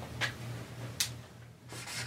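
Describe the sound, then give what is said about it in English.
Notes being written down by hand: a few faint, scratchy strokes over a low, steady hum. “Let me write these down for you real quick.”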